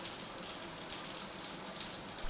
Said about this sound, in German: Unter der Dusche gibt es schon einen kleinen Vorgeschmack. Wow, ist das Wasser kalt!